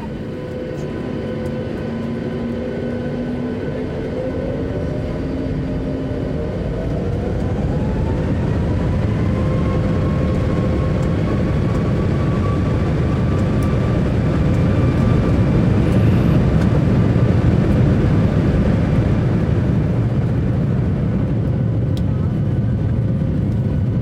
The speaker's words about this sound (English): The captain would like to say welcome. Thank you for flying with us. We'll be underway for Orlando shortly.